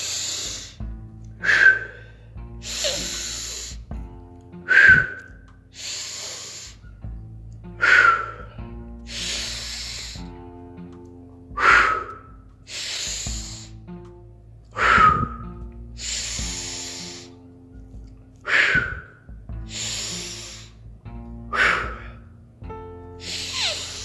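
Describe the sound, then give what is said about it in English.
Deep breathing during a guided breathing exercise: a series of loud, hissing inhales and exhales that repeat at a slow, steady rhythm roughly every three seconds, with no voices. “Four more breaths. Come on. Draw that mind out of the body. Breathe right deep, down deep from the perineum up to the top of your head.”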